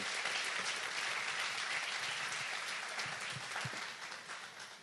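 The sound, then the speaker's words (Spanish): Audience applause at a religious gathering, honouring a doctor being welcomed, a steady, fairly quiet wash of clapping that thins and fades slightly toward the end, with a few low thumps partway through. “Así que queremos darle la gloria al Señor con un aplauso a la vida del doctor Luke Holter.”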